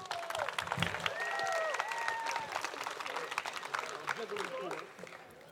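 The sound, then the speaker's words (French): Audience applause, an ovation for a performer who has just recited a text, with dense, even clapping throughout and some voices mixed in. “mesdames et messieurs, je vous demande une ovation pour Elina”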